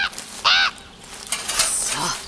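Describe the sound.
A caged bird gives one loud, harsh, caw-like call, followed by softer, quieter sounds.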